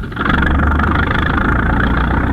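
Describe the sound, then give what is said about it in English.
An engine idling with a steady, loud low rumble and a faint vibrating texture that holds evenly throughout, with no clear starting sound. “Start your engine, and I'll make the line ready.”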